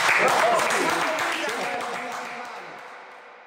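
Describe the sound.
Applause and cheering from an audience at a gathering, loud at first, then fading steadily over a few seconds with voices mixed into the crowd noise.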